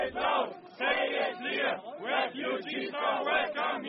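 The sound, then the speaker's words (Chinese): Counter-protesters shout loudly at anti-Islam marchers along a demonstration route in Germany, a dense crowd roar rising and falling in rhythmic, chant-like surges without a break. “反对这些抗议的群众在长达2公里的示威路线两旁大声地质问这些游行者”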